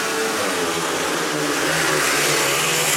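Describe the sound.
Speedway motorcycles roar as a heat starts in a speedway match: a loud, dense engine drone with a gritty rasp that holds steady for the whole moment, with no talk.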